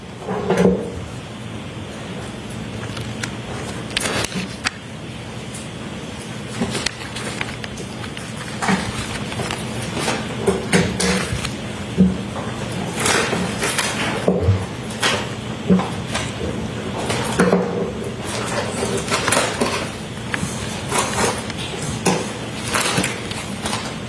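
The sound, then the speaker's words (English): A bag being opened and an item taken out, heard as many irregular rustles, crinkles and soft knocks of handling that carry on steadily without speech. “Would you please open the bag and show us what's in that bag?”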